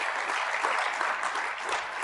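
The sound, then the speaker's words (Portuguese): An audience applauds during a bilingual church service after the preacher asks for a big hand for God: a dense, steady wash of clapping that holds at an even, loud level for the whole stretch. “Just give God a big hand. Vamos. Dá-me salva, vamos a Deus. Grande aplauso.”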